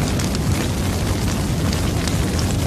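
Steady, roaring fire noise used as a fire-pit warning cue in an audio video game. The dense rumble runs continuously without breaks or changes in level.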